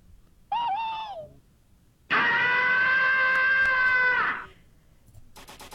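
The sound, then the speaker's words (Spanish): A peculiar character scream from a series, voiced by a person: a short wavering cry first, then a long, steady, shrill scream held for about two seconds before it stops abruptly. “Y justo uno de sus gritos, que es como muy, muy peculiar, que más o menos suena así.”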